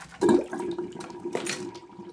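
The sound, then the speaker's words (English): Water runs from a kitchen tap as paws are washed before cooking. The flow is a soft, continuous splashing rush with a louder burst near the start, heard alone. “Let's wash our paws before we start.”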